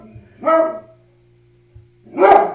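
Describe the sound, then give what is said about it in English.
A dog barks at something outside near a driveway: two loud barks separated by a pause of more than a second, over a low steady hum. “I'm going to hit pause because he's kind of loud. All right, so I hit pause. I apologize for the barking.”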